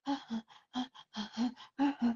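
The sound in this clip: A person imitates panting with a quick, rhythmic run of short voiced breaths, many of them in pairs, each one breathy and tonal with brief silent gaps between them.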